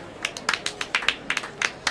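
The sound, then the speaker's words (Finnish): Scattered clapping from a few audience members after a comedy act, many separate sharp claps in a loose, uneven rhythm, fairly faint and without a sustained roar. “Joten annetaanpa vielä pienet aplodit Simbeliukselle, Pambeliukselle ja Jymbeliukselle.”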